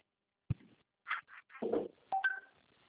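A telephone call being dialed: faint, sparse dialing sounds, with a soft click followed by a few short electronic beeps and tones separated by brief pauses.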